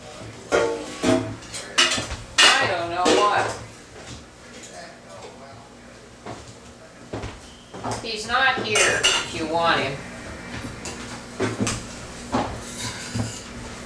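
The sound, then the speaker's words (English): Pot lid and pans clank and scrape as they are handled while cooking in a home kitchen, many irregular metallic knocks in bursts, with a voice talking at times. “And what happened to this lid? Oh, I saw it just a minute ago. Oh, here.”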